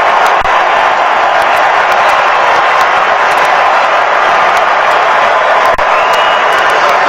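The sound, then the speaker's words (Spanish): Stadium crowd in Miami erupts as Neymar enters a Brazil football match with his side leading 3-0: a loud, sustained roar of cheering mixed with whoops and some clapping that stays at full strength throughout. “Así lo recibe el público de Miami, se va Mateo Cunha, explota el estadio con Neymar en la cancha.”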